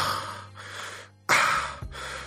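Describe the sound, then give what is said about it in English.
A person breathes slowly and deliberately in a creepy manner. A few drawn-out breaths include one sharper, louder intake in the middle. “Cause I did like this whole like slow breathe.”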